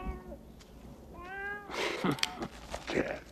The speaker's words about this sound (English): A black cat walks toward the table. The rat-nosed gangster picks it up. Hi, little fella.